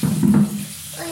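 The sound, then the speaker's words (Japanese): Shower water runs in a steady hiss for about a second, slightly louder at the start, with no voices. “冷た、シャワー冷たい。早く暖かくならないかな。”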